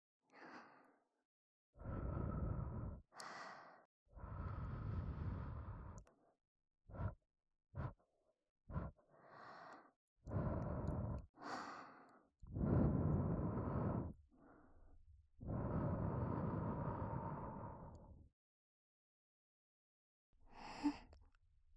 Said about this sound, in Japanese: ちょっとだけふうふうしますね。